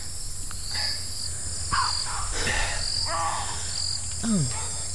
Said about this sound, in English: Any idea where we are? Besides the Amazon jungle?